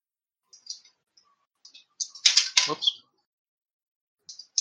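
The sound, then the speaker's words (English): Dice drop and clatter during a tabletop role-playing game, with scattered light clicks and a denser burst of rattling hits in the middle. The sound is faint and comes with sparse ticks before and after. “Whoops, dropping dice.”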